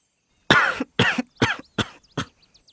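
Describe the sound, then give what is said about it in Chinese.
Five harsh coughs burst out one after another in an even rhythm, each short and forceful, coming from a room, followed by a few faint trailing breaths. “吴一货的房间里传来了一阵接一阵的咳嗽声”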